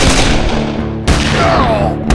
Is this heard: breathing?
no